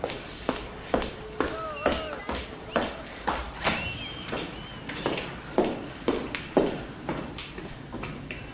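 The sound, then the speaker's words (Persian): A woman in a black chador walks into a workplace. Her footsteps fall in a steady, even rhythm of crisp taps, many in a row and moderately soft. “این صدای قدم های یلداست که با چادر مشکی دوباره اومده محل کار مصطفی.”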